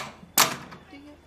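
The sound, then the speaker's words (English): A door is opened with a single sharp clack, followed by a faint trailing rustle and low background hum. “Hurry up and open the door, please.”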